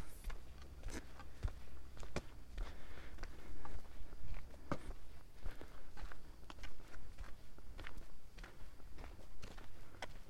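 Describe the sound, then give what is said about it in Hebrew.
Footsteps of someone walking through a forest make many quiet, rhythmic crunching steps that continue at an even pace with no talking. “ככה אני נראה כשאני הולך ביער.”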